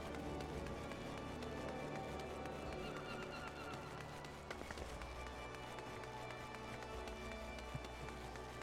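Running footsteps of a character sprinting in a video game, a quick, steady patter kept faint beneath a continuous music bed.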